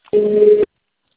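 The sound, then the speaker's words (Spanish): A voicemail tone before recording a message sounds as a single steady electronic beep of about half a second, mid-pitched and loud, then cuts off into silence. “Por favor, deja tu mensaje después del tono. Si necesitas volver a grabar, marca el signo de número y espera instrucciones.”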